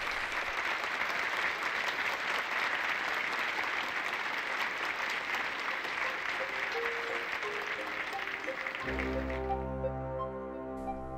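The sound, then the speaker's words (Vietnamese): Resounding applause from an audience at a lecture: dense, loud, continuous clapping that holds steady for about nine seconds, then stops abruptly and gives way to sustained low tones. “Tiếng vỗ tay vang dội tưởng như kéo dài bất tận.”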